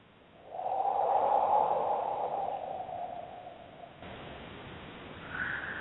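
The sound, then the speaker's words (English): A deep breath drawn in and let out makes a soft, airy hiss that swells, holds for a few seconds and slowly fades, with a brief, higher breathy sound near the end. “Taking a deep breath, breathing in, filling the body with air, and just connecting to the wisdom of the breath.”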